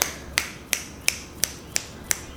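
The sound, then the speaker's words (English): Sharp finger snaps, given as appreciation after a poetry reading, come in a steady, evenly spaced run of crisp clicks over a low, quiet background hum. “snaps, finger snaps?”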